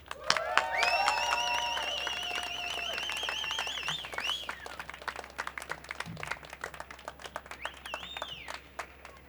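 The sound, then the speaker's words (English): A crowd at a Gaza solidarity demonstration on the Spui in Amsterdam claps steadily, with bright, wavering high tones like whistles or whoops rising over the clatter of many hands. “Ladies and gentlemen, let's hear a round of applause for Marika Stam, representing today Amsterdam Palestina Coalitie.”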